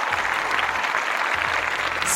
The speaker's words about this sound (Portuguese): Bateu uma salva de palmas aqui.